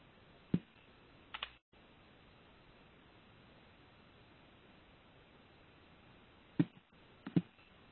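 Sparse keystrokes on a computer keyboard: a few isolated clicks, some in quick pairs, scattered over a steady faint hiss, with a long quiet stretch between the early and late taps.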